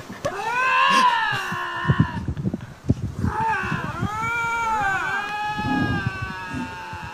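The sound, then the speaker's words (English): Two lynx wail back and forth at each other in long, harmonic yowls whose pitch arcs up and down, the calls trading and overlapping over several seconds. “He was the guy that filmed those 2 lynx that were wailing back and forth at each other.”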